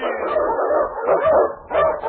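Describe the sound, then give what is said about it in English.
Husky sled dogs, Eskimo lead dogs on a snowy trail, bark and yip in a few loud, rough bursts with whiny tones between them, clear and close together over about two seconds. “swiftest and strongest of Eskimo lead dogs, blazes the trail through storm and snow”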